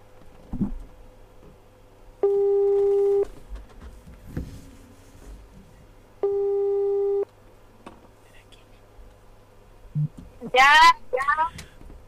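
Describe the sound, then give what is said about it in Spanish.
A telephone line tone sounds while a call is being placed, as two long, even tones separated by a quiet gap over a faint low hum, with a brief voice near the end. “Vamos a llamarla a ver si me contesta.”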